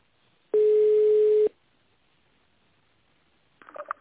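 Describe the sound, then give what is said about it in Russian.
A telephone call being transferred to an internal extension: a single steady electronic tone lasting about a second, then a quiet line and a short faint burst of sound at the end. “Перевод звонка на внутренний номер 5015. Минуточку.”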